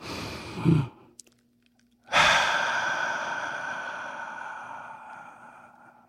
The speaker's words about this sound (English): let's take a deep breath